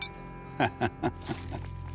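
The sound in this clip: Beer bottles clink together in a toast, a few sharp glassy taps in quick succession, fairly faint.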